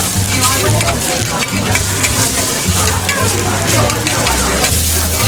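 Garlic and shallots sauté in a pan, browning in a loud, steady sizzle with fine crackles that runs the whole time without a break.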